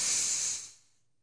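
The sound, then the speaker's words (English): A single deep breath, heard as a loud, airy hiss that holds steady for about half a second, then fades away to near silence. “We need to breathe. It's a Friday. We've made it. 1, 2, 3. Deep breath in.”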